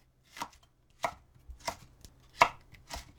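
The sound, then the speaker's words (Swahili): Knife chopping bell peppers into long strips about 5 mm wide: five crisp, sharp cuts at a steady, unhurried pace, alone with no talk. “katakata pilipili hoho mara 2 na uondoe mbegu na shina. Katakata pilipili hoho vipande virefu vya upana wa milimita 5.”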